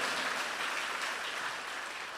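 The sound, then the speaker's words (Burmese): A church audience claps together, a dense, even wash of applause that runs without a break and stays fairly soft. “ယုံကြည်သောသူများလက်ခုပ်တီးလက်ခံယူကြရအောင်။”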